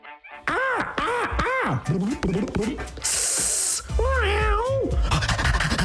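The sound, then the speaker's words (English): A human voice imitates the animal noises heard at a pet store, loud and unbroken: drawn-out, wavering meow-like cries, a sharp sustained hiss, then more meowing and yowling. “Pretty good, eh? It's my impression of the noises you can hear when you go to the Pet Palace.”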